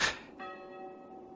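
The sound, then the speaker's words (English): A bell rings to summon someone: a short burst of noise, then one stroke whose clear, steady tone rings on, fairly faint. “The bell calls me to murder.”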